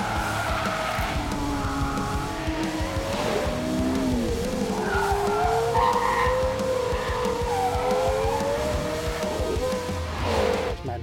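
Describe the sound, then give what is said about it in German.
Tyres squeal from a Bentley Continental GT V8 drifting sideways around the Bilsterberg race circuit. A loud engine drone runs under a wavering, sustained squeal for the whole stretch, with no pause. “Wer ballert mit seinem Continental GT V8 auf dem Bilsterberg quer durch die Gegend?”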